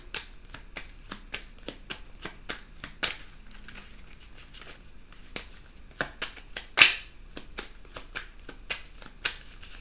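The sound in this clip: A deck of tarot cards is shuffled and drawn, giving many crisp riffling snaps at an irregular pace, with one louder slap of cards near the end.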